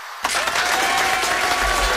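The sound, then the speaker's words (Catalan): Clapping bursts in after a brief silence as guests are welcomed into a radio studio, then continues as a steady, even wash of applause to the end. “Un aplaudiment per tots els que van entrar a l'estudi.”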